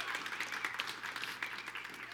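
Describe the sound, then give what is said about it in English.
A church audience applauds, a dense wash of many hands clapping steadily and evenly for the whole two seconds, with no clear break or peak. “Church family, put your hands together for those who are listening right now online. Let them know how much you love them.”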